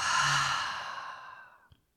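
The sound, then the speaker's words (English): A deep breath out through the open mouth during a guided breathing exercise: one long, breathy sigh that starts full and fades gradually to silence, alone with no talk. “And let's take a deeper breath in through the nose. You can open the mouth and let some of that go.”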